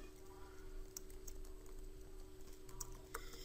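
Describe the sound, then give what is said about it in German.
Computer keyboard typing as a first and last name are entered into an on-screen form, a few faint key clicks scattered over a steady low electrical hum. “Ich tippe den Vor- und Nachnamen ein.”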